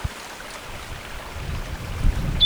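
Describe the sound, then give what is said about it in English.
Strong wind blows outdoors, a low buffeting rumble that swells toward the end, with a brief faint high chirp at the very finish. “Very windy.”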